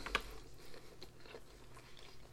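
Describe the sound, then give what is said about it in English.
A person chewing sushi, faint and close: one crisp bite near the start, then soft, wet mastication sounds with no talking. “I hope you guys like the sound of people eating.”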